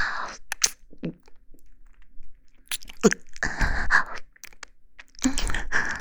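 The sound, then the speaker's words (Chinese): Crunching and chewing on a crispy chocolate-coated ice cream bar, with a few bursts of crackling bites separated by quiet pauses and softer mouth sounds. “我在吃雪糕呢，巧克力味的脆皮雪糕。”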